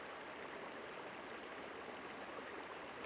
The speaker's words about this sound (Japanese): 朝尾の滝は横川でも有数の観光名所だものね。朝の糸が織りなされるように水が降り散るから朝尾。